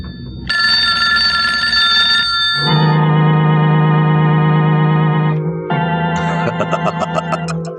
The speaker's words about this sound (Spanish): Escucha, esa es la llamada que esperamos.